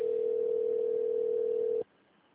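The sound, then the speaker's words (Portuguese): A telephone line gives a single steady tone while a call is transferred. The tone is moderately loud and lasts a little under two seconds, then cuts off abruptly, leaving faint line hiss. “Por favor, aguarde. Estamos transferindo sua ligação para um de nossos atendentes.”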